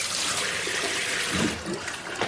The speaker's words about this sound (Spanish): Se lo quita, lo lava y se enjuaga las manos.